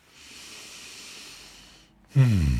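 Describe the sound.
A person takes a long, airy breath that fills most of the moment as a steady soft hiss, then breaks off briefly before a voice begins.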